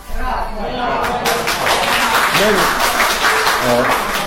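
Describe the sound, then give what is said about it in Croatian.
Applause fills an assembly hall as a dense, continuous clatter of many hands that holds steady, with a voice speaking over it. “Meni aplauz ne treba.”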